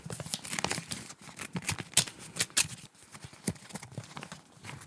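A paper envelope holding a card is torn open, giving a few sharp crinkling, ripping bursts with brief pauses between them and no voices.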